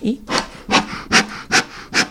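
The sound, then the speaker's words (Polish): The bellows of a wood-fuelled beekeeper's smoker puff smoke out in a steady rhythmic series of short, breathy hissing bursts. Each burst is separated by a brief lull. “i działa miech. I działa, tak, miech, i czyli dmuchamy dymem.”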